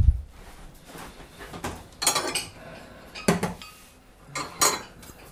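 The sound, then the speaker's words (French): Clinks and scrapes of cutlery against a plate as a piece of food is cut into portions, a few sharp clatters standing out over a quiet background, with no talk. “Et on se coupe un morceau.”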